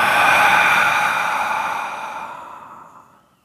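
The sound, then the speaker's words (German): A deep breath during a guided meditation ends in a long, loud, breathy exhale through the mouth that fades steadily to silence over a few seconds. “Und ein drittes und letztes Mal tief durch die Nase einatmen. Und durch den Mund ausatmen.”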